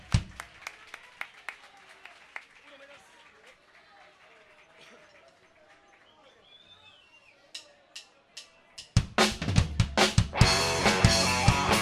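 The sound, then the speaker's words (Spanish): Audience applause at a local rock gig: talking with scattered claps gives way to a loud, dense burst of clapping in the final few seconds. “Fuerte el aplauso para ellos que nos vienen dando una mano desinteresada y capaz que no se ven, pero están siempre con nosotros.”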